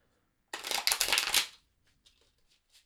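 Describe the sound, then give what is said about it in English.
Tarot cards are shuffled in a dense, papery riffling burst lasting about a second, followed by a few faint, soft taps and slides. “So the card I just pulled for us is the Empress, and she is direct, which is also nice to see.”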